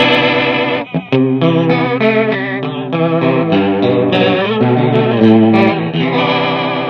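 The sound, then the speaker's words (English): Rotary speaker effect with built-in overdrive switched on, giving warbling, swirling sustained notes with a gritty edge as chords shift, loud throughout apart from one brief dip near the first second. “what's cool too is it has like overdrive built into it. So if you flip the overdrive gain switch, it does add a little bit of dirt.”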